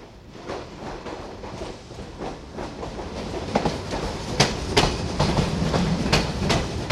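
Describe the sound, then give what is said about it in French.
A passenger train from Paris-Nord to Valenciennes pulls into a station, its wheels beating out a rhythmic clickety-clack over the rail joints that grows louder with many sharp clacks. “numéro 7164 en provenance de Paris-Nord et à destination de Valenciennes. Départ initialement prévu à 14h08. Entre en gare.”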